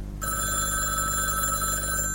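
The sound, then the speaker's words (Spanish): A telephone rings shrilly. A continuous, bright, bell-like ring starts almost at once and holds steady and loud to the end, with no voices. “cuando el estridente sonido del teléfono turbó su tontamiento mañanero”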